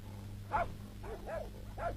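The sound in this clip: A dog barks a few short, faint times at an uneven rhythm over a low background hum, with no speech.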